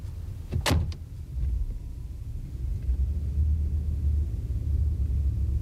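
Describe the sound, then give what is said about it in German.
A car pulling up, heard as a steady low engine rumble that runs through the whole stretch, with one short sharp knock near the start. “Ihr Wagen ist vorgefahren.”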